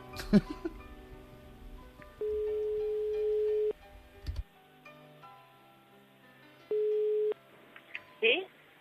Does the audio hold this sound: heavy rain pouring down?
no